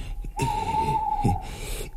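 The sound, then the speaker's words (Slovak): Owl hooting, a single long, steady, even-pitched hoot held for about a second, fairly soft and heard alone over a quiet background. “A to iba sova húka.”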